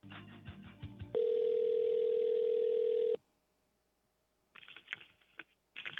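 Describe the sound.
A telephone ringing tone plays while a call is being transferred. It is one steady, sustained tone lasting about two seconds, then a gap of near silence, with brief noisy bursts before and after it.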